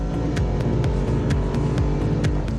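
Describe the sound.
A Lexus RC F race car engine drones loudly and continuously as it is driven through tight corners with electronic driving aids switched off, its revs repeatedly rising and falling.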